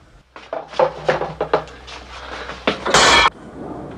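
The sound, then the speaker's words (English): A cane smashes an enclosed hanging light shade: a few sharp knocks and rattles, then a loud, bright crash that lasts about a third of a second before fading. “as the shade's enclosed, making getting at the bulb tricky, he smashes the whole thing with his cane.”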